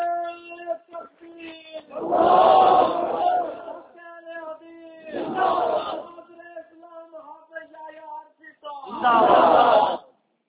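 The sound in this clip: A crowd at an Urdu religious gathering chants a loud slogan in response three times in big roaring bursts. A single leading voice is heard between them.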